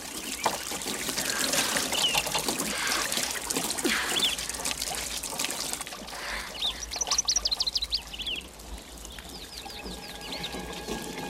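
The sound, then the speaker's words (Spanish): Water trickles and splashes from a broken garden tap as someone showers beneath it outdoors. The stream is soft and steady, with birds chirping in the background, most clearly toward the middle. “Hannah se ducha en el jardín bajo el caño de agua de un grifo roto. Bebe agua al tiempo que se lava.”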